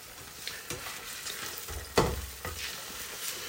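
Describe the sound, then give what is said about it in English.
Tuna frying in a pan, a soft continuous sizzle with a few stirring scrapes and one sharper clatter partway through, faint and without talk. “Tuna's cooking away.”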